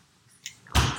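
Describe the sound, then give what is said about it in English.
A beer bottle is opened: a faint click comes first, then a sudden loud burst of hissing gas that carries on, bright and airy, until the end. “This is the sound of a beer opening.”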